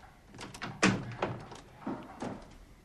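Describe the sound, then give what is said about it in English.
A kitchen door closes behind someone: a few soft, muted wooden thuds, the loudest coming early, the rest quieter and spaced out, all fairly faint. “Grace hesitates while Annie carries on cooking, then slips back into the dining room, closing the kitchen door behind her.”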